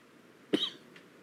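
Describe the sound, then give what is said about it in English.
A single short, sharp cough, fairly loud against a quiet background, with no voices. “cough.”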